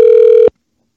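A telephone ring tone on an outgoing call: one steady, mid-pitched electronic tone with a buzzy edge that holds for about half a second, then cuts off cleanly into silence.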